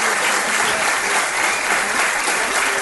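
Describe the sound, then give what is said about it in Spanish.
Steady applause from an audience: dense, continuous clapping that holds an even loudness from start to finish. “Jesús Ortega, os pido un aplauso para él.”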